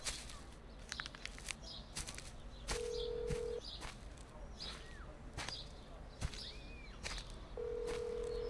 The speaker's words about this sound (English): We're sorry. The number you have dialed has been disconnected or is no longer in service.